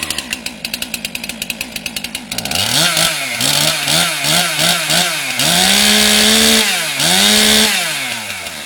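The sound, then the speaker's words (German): A chainsaw carves a Mozart statue from a wooden log at the Bürgerbräu site in Würzburg. Loud, sputtering idle pulses give way to repeated revving surges, the engine pitch climbing and dropping with each cut. “Ein letztes Mal hallt die Motorsäge über das Bürgerbräugelände und dann steht er da. Ein Mozart für Würzburg, gesägt aus einem Holzstamm.”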